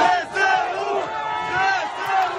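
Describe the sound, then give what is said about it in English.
A crowd cheers and chants in Kherson as Ukrainian soldiers enter the city. Many voices rise together in a sustained, rhythmic chant that swells and eases in repeated waves. “Ukrainian soldiers entered the city of Kherson to cheers and chants.”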